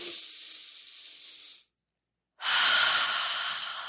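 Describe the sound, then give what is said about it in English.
A person takes a deep breath: two long, airy breath sounds with a short silence between them, the second one louder and fuller. “I want you to take a deep breath in with me. Literally right now, I for sure as hell need a deep breath because I'm running out of breath.”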